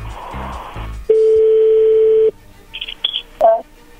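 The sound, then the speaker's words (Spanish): Telephone tones as a call is placed: a voice gives way to a steady, loud dial tone for about a second, followed by a few short, higher beeps. “vamos a llamarle a tu novia Verónica”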